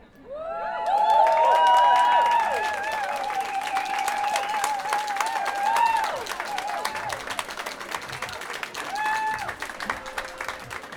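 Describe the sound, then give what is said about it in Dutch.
An audience at a Pride walk gathering applauds: dense, sustained clapping mixed with high whooping cheers, loudest early on, then easing and swelling again. “Eén keer een groot applaus voor Cleo.”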